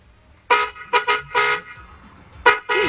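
A car horn honks in a neighborhood: six short, bright, loud toots in an uneven rhythm, some in quick pairs, with quiet gaps between and no talking.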